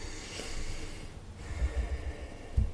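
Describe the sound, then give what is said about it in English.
A slow, deep breath taken to settle and prepare, heard as faint, airy breath noise with a few soft, low puffs of air toward the end. “Let's get ready for our story by taking a nice deep breath to prepare ourselves.”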